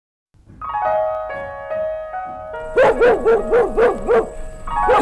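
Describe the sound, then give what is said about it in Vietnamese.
A dog barks in a Vietnamese folk opera recording, first with a drawn-out whining tone, then a rapid run of several loud, high yipping barks. “Đừng có sủa nữa. Sủa hoài ta sốt ruột quá rồi đó.”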